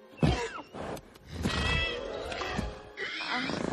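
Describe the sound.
Pegasus, Hercules' winged horse, gives a few loud, rough snorts and grunting, whinny-like vocal bursts with breathy noise between them, in an animated scene.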